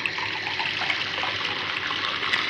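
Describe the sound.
Water poured into a glass while a drink is mixed with lemon and a sharp spirit. A steady, even splashing trickle runs without break for about two and a half seconds, with no talk.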